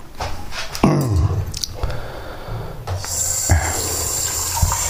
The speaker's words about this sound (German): Tasse erstmal abspülen.